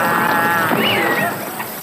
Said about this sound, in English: I wanted to have a relaxing day in the creek with my inner tube, but now the cows are crossing upstream.